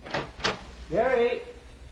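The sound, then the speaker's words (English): A door being opened: a couple of brief clunks, then a drawn-out, wavering creak that swells and fades. “Go out the door, will you, dear, and see if you can get any answer.”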